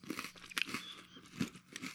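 Crunchy chewing of homemade pumpkin spice protein donuts: a few crisp, irregular bites and mouth sounds, fairly faint, with no talk over them.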